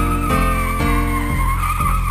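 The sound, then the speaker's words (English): A hearse's tires squeal in a sustained, loud, high screech. The screech pulses steadily about every half second across the short clip. “and a hearse with its wheels a-squealing.”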